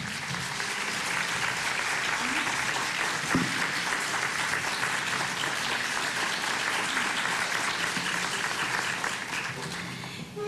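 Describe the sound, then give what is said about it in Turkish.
Sustained audience applause welcoming the conductor onto the stage at a concert, dense and even clapping that holds steady for about ten seconds and thins slightly at the very end. “Konseri yönetmek üzere kendisini huzurunuza davet ediyorum. Alkışlarınız Hasan Esen için.”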